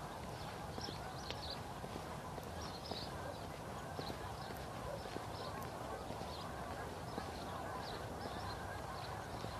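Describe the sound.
A large flock of birds arriving for winter calls with many faint, repeated honking cries over a steady background hiss.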